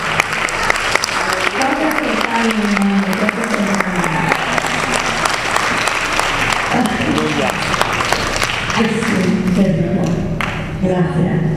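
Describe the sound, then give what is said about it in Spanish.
Congregation applauding the Lord during a Spanish-language church service: dense, steady clapping runs the whole length, with voices rising over it. “Denle un aplauso al Señor porque no se contagia.”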